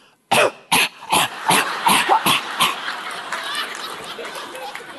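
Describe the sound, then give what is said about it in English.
A person coughs on purpose all over a chocolate-dipped ice cream cone: a rapid series of harsh, explosive coughs, the first ones loudest and most distinct, crowding together and trailing off into ragged, breathy rasping. “and I cough all over the chocolate dip cone”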